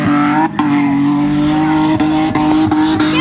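Stock car race cars roar at a fair in Koumac. Their engines make a loud, steady droning snarl, broken by a few brief dips where the revs drop and pick up again.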